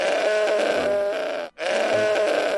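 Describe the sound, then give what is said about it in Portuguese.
Goat bleating, apparently from inside a room: two long, harsh, wavering bleats, loud and tonal, separated by a brief silent gap. “Ah, que diabo é isso? O cara tá com um bode aí dentro.”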